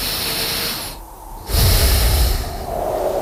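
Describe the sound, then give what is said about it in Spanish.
A speaker draws one deep, airy breath with a snort-like rush of air. It rises out of a steady, noisy background that dips briefly just before the louder inhale. “voy a respirar para coger fuerzas para mañana”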